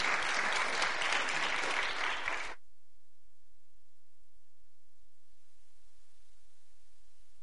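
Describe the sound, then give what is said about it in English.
Audience applause welcoming a guest speaker, the executive director of the American Baptist Home Mission Society: dense, steady clapping for about two and a half seconds, then it cuts off abruptly into near silence. “So let's give him a big hand and welcome, welcome.”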